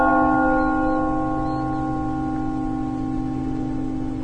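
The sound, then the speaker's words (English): A bell struck once with a hammer, its toll a rich stack of steady ringing tones that sustains and fades only slowly over four seconds, with no voices. “The bell toll rings, like the announcing of a funeral across the snow-racked mountains.”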